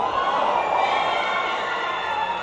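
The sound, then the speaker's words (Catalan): A disappointed crowd at a Bermuda national football team World Cup qualifier makes a low, steady murmur of chatter, with no cheering or clapping. “Aquest to del públic és de decepció? De decepció, sí, perquè van perdre per un global de 8-0.”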